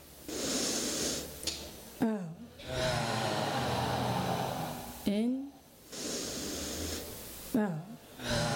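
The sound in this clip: Slow, deep breathing in and out by a group: a few long, airy rushes of inhaling and exhaling, with a voice making brief sounds between the breaths.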